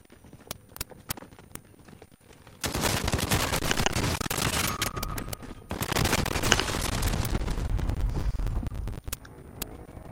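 Gunfire in a video game: several sharp, isolated shots open, then a long, loud stretch of dense, rapid firing and noise, tapering back to scattered single shots at the end.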